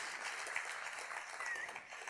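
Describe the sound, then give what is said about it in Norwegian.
An audience applauds in a steady, even wash of clapping that holds at a moderate, fairly quiet level from start to finish, with no voices. “Dere må få en skikkelig applaus.”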